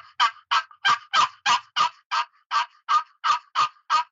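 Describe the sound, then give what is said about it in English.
Turkey yelps played on a handmade box call: twelve raspy, evenly spaced notes in a steady rhythm, each a short, bright, scratchy squawk, moderately loud and heard alone. “That's one of my box calls that I make. Here's the one that I got.”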